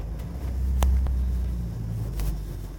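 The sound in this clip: A 70-year-old vehicle with a Continental four-cylinder engine and a three-speed column shift drives and turns around in a yard, giving a low, steady engine rumble with a few faint clicks and knocks on top.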